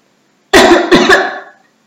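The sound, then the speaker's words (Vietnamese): Two loud, sharp, dry coughs from an ill woman slumped in a car's passenger seat, coming in quick succession, with the second one trailing off. “Tạ Thiên Ngưng hôn mê ngồi trên ghế lái phụ, thỉnh thoảng ho khan vài cái”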